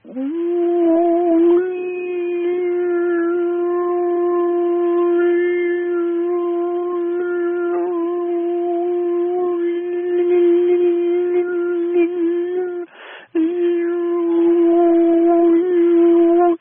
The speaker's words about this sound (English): move my mouth around, change the placement of my tongue to bring out those different notes. People who do overtone singing are really good at this. I'm pretty good. Check it out.